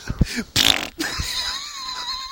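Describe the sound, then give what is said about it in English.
A fart: a short, loud, sputtering burst, followed by a thin, lingering squeak. “Jumps when he farts. Unfortunate. Tries to fart, but shits himself.”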